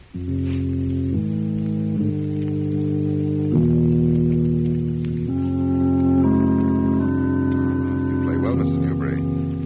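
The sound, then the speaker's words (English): Organ playing a slow, strange unnamed piece of music, held chords shifting every second or two at a steady, fairly loud level, with higher notes added toward the end. “It's horrible music. Bertram wrote it years ago, and he made me play it over and over again.”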